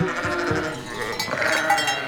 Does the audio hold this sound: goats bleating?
yes

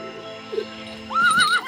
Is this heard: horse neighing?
yes

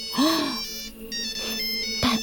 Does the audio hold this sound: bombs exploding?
no

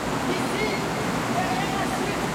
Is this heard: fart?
no

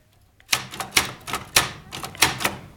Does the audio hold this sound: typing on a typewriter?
yes

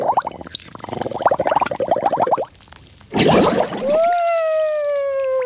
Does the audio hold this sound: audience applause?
no

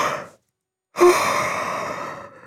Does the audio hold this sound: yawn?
yes

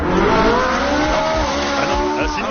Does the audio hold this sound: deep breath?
no

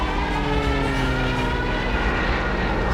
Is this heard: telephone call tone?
no

